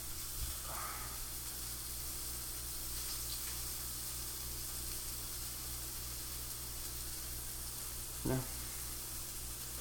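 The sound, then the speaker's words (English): Bacon frying in a pan, a steady, even sizzle and hiss that runs unbroken throughout, with one brief soft knock near the end. “Yeah, but I like my bacon super burnt, like the way you like your toast.”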